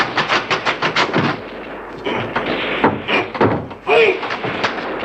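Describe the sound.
Gunfire from militia guards opening fire: a rapid run of sharp, loud shots, then heavier irregular blasts, with voices among the shots.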